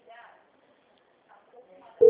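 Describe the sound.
A telephone ringback tone sounds while a call is placed: faint murmuring first, then a loud, steady tone that starts abruptly near the end.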